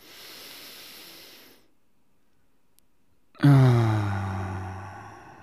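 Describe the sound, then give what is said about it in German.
A deep breath: a long, airy inhale hiss, a moment of silence, then a loud, voiced sighing exhale that slowly tapers off. “Und lasst uns einen tiefen Atemzug nehmen.”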